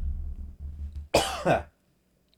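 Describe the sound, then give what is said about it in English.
A person coughs twice in quick succession, each burst short and harsh. A low steady hum comes before them, then near silence follows. “cough.”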